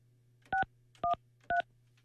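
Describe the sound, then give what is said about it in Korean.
Three touch-tone keypad beeps as a phone number is dialed, each a short, clean dual tone, evenly spaced over a low steady hum. “그 중에서 이분에게 제가 한번 전화 걸어볼게요.”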